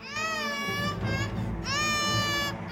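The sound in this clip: A baby girl cries in a Catalan audio drama as someone holds her. She gives two long, high-pitched wails separated by a short catch of breath, loud and alone.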